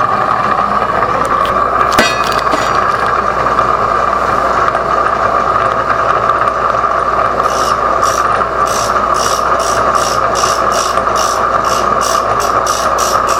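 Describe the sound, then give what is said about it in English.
A dry, high-speed aluminum oxide wheel spins with a steady motor whine while a chisel edge is sharpened on it. Many brief, hissy grinding touches recur rhythmically in the second half. “The dry, high-speed aluminum oxide wheel will burn the edge very quickly, so it's just a lot of light touch-offs.”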